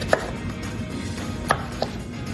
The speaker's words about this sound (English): Here, let's cut up some zucchini and we'll try it again. Okay. I'll give you some strips to cut, okay?